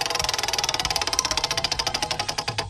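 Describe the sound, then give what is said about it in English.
Rapid ticking of a prize wheel being spun, many sharp clicks in a fast, even rhythm that keeps going throughout. “All right, give it another spin. Come here, wheel.”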